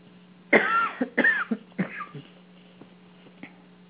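Three rough, loud coughs from one person come in quick succession, each a short harsh burst. A few faint, brief sounds follow in the quiet afterward.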